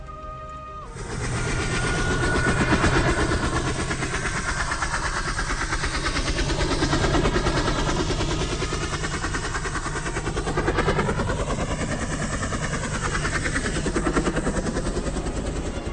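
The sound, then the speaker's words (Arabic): An airplane engine drones in the desert, a loud, steady rumbling roar that swells in after a quiet start, with slowly shifting tones. “خالد لقى نفسه جوه صحراء ما فيهاش غير صوت الطياره اللي سمعه اول ما نزل.”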